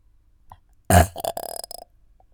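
A loud, rasping burp bursts out once, then breaks into a choppy series of shorter guttural pulses before fading, with no other sound around it.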